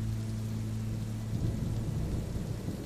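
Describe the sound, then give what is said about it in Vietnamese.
Heavy rain falls as a dense, steady hiss throughout, with a low rumble beneath it that fades after the first half. “Mưa rơi nặng hạt như những nỗi lòng đang chất chứa bên trong thâm tâm của hai chú cháu bất hạnh kia.”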